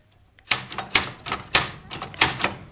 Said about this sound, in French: Maintenant, j'ai une machine à écrire.